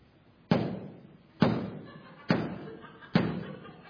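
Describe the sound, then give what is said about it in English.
Someone knocks loudly on a door: four heavy, forceful thuds at a steady, deliberate pace, each followed by a brief dull decay. “If I knock on the door like this,”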